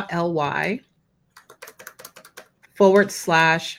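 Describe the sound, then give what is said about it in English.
Typing a web link on a computer keyboard: a quick run of about ten crisp, irregular key clicks between stretches of people talking. “So I'm going to give you a bit.ly link. Okay. I'm going to type it in”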